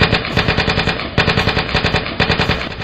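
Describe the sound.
Machine guns firing in battle against advancing troops, a loud, rapid, continuous rattle of evenly spaced shots in sustained bursts with brief breaks between strings of fire.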